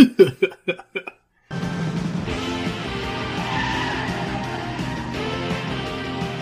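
Car tires squealing and engines roaring in a film car chase weaving through traffic, a continuous loud, harsh screech and rumble that follows a few short sharp knocks at the start.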